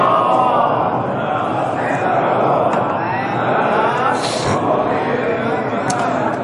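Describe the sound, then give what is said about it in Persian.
Many voices at a religious gathering recite salawat together in unison, a loud, continuous, dense chant that holds steady throughout. “صلواتی خط بفرمایید.”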